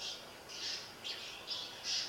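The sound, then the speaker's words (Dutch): Birds calling by a spring: a few faint, high, rasping squawks repeating at a steady pace over a soft background hiss. “je hoort de vogels die daar ook als hun schuilplaats vinden”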